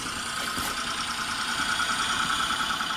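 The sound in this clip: A front-wheel-drive Daihatsu car engine runs while the car drives in snow in a supermarket car park, a steady, even mid-pitched drone with no voices.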